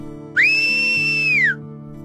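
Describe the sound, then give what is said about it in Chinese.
A whistle sounds as a man seated in a restaurant tries to call a waiter: a single steady, high tone of about a second. It starts with a quick upward slide, ends with a downward slide, and plays over soft background music. “他正坐在餐厅里吹口哨，想叫服务员来点菜。”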